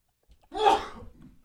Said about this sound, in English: I don't know what you do with a sneeze on live national radio.